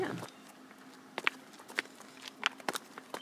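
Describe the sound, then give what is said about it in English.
Footsteps go down steps toward a small brewery cottage: several sharp, irregular steps, some in quick pairs, after a short voice at the start. “It says Helderberg Brewery down this way. So we're gonna walk down the steps.”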